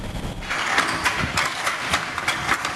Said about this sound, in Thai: เสียงขี่กระทบเส้นได้เป็นจังหวะแต่ละเส้นถูกถักทออย่างประณีต